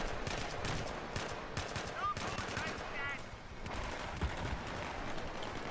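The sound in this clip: Rifle fire from a G3 in a video game: rapid runs of sharp shots in short bursts, with a brief lull near the middle before the firing resumes.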